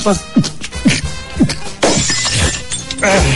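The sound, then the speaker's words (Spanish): A drinking glass drops and shatters into a sharp, brief crash of breaking glass, with people talking around it. “Se me cayó el vaso.”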